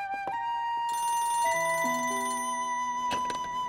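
An electronic telephone ringtone plays, a short melodic run of clear synthetic tones stepping downward in pitch, with a couple of sharp clicks near the start and end, fairly faint and without talk.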